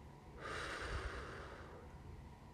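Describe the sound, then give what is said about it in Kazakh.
One deep, slow breath during a guided relaxation exercise, drawn in through the nose and let out through the mouth. It is a single long, soft, airy rush lasting over two seconds, quiet and alone, with no talk. “енді терең тыныс ал мұрныңмен сосын деміңді шығар аузыңмен”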